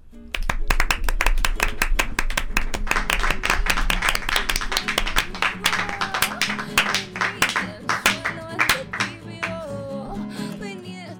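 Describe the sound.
Audience applause at a live music session for a singer-songwriter: dense, sharp, fairly loud clapping that runs steadily for several seconds, then thins into sparser, scattered claps toward the end.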